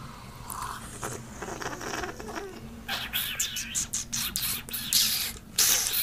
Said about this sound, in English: They're tasting. I'm aerating it. That's the noise of me aerating it.